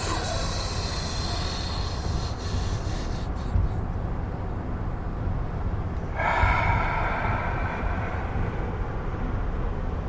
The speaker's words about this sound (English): Ready? Go. Breath number 2. Go.